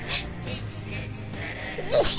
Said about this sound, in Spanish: Ay, la estornudación.